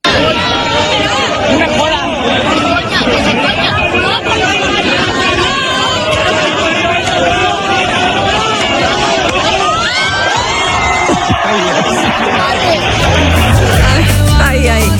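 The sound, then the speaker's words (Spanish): An elderly audience of people around seventy cheers and shouts encouragement at a performer of similar age, a dense, loud crowd hubbub of overlapping voices that carries on throughout. “Por lo menos el momento se ha podido captar auditivamente, ¿no? Pues bueno, sí que es verdad que le animaron, ¿eh? Con manitas así al aire, venga, venga, tírate.”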